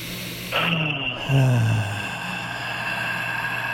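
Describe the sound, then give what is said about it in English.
One full breath is drawn in through the nose and then pushed out as a deep exhale, the release louder and slightly voiced like a sigh, over steady background noise. “all the way in through the nose. Let's go. Full exhale. Yeah, let's go. 2 more.”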